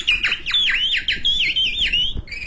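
A person imitates a caged songbird's call with many quick, high chirping whistles, each sweeping sharply downward, in a lively, uneven run.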